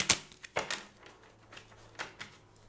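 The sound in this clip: Clarity cards being shuffled give a few crisp, papery snaps and flicks at uneven intervals, fairly quiet with no talk.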